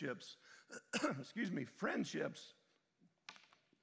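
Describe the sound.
Coughing and throat clearing: a few harsh, rough bursts in quick succession, followed by quieter, scattered small sounds.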